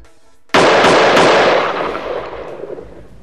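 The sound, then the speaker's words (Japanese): A gunshot sound effect for a detective character's gun: after a short silence, a sudden loud blast, then a couple of quick cracks and a long tail that slowly fades. “特捜班切手の銃の達人、ジョーさんの銃の音はこちら。”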